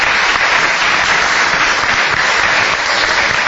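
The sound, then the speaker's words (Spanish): Applause from a group celebrating a newborn's birth: dense, steady clapping that stays loud and even for a few seconds, with no talk over it. “Un aplauso para Tomasito.”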